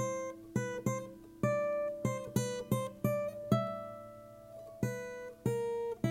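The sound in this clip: A soft melody on an acoustic guitar, played by ear: about a dozen plucked single notes that ring out at an unhurried, uneven pace, with one longer held note near the middle.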